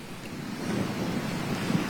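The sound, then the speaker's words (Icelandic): Strong wind roars outdoors in rain at Landmannalaugar in the Icelandic highlands. The noise is steady, dense and rushing, with slight gusting swells and no voices. “Já, það sól, rok og rigning en alveg afskaplega fallegt.”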